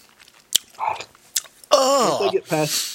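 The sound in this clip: Chewing on sour green apple candy: a few crisp bites and chewing clicks, then a loud, drawn-out voiced groan that wavers in pitch while the chewing continues.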